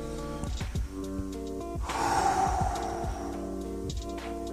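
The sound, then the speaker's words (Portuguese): A long, breathy deep inhale swells and then fades over a steady musical backing, rising to a soft rush of air before settling back. “Você respira fundo.”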